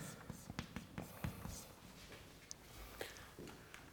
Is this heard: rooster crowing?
no